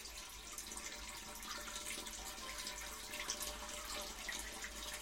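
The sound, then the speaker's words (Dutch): Water drains slowly out of an outdoor ice skating rink about 175 by 70 metres, a faint, continuous rushing hiss with no breaks. “Dit is het geluid dat geen enkele ijsmeester wil horen. Het is het geluid van een schaatsbaan die langzaam leegloopt.”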